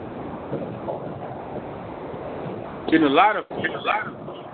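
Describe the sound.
Steady rushing wind and road noise from a caller driving a car, carried over a narrow phone line, with a person starting to talk over it near the end.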